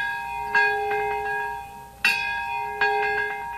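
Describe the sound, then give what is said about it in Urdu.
Bells ring at a memorial ceremony in Nagasaki's Peace Park marking the anniversary of the atomic bombing, a few loud metallic strikes, each leaving a bright, steady ringing tone that slowly decays before the next blow. “Nagasaki کے وقت کے مطابق ٹھیک 11:02 پر گھنٹیاں بجنی شروع ہوئی۔”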